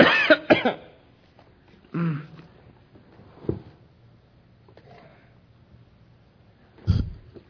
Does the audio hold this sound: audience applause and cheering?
no